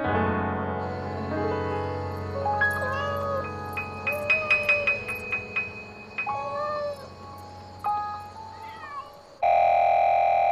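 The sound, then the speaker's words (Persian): A cat meowing, set against a tiled wall where it keeps tripping an alarm system: several drawn-out, bending cries rise and fall over a sustained tonal background, with a cluster of short chirping notes midway and a louder steady tone at the end. “بی خیال، بازم اون گربه لعنتی، بهت گفتم که بگیرش.”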